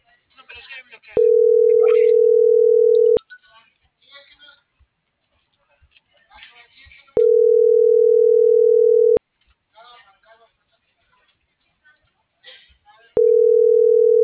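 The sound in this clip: After a number is dialed, a telephone ringback tone plays three times: each steady mid-pitched tone lasts about two seconds, with gaps of about four seconds between them. Faint talk is heard in the gaps.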